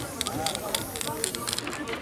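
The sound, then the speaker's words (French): Spray paint hisses steadily from an aerosol can as a beginner fades yellow into red, a faint, continuous spray heard under people talking. “si tu veux essayer un petit dégradé entre le jaune et le rouge, tu t'inclines un peu ta bombe comme ça.”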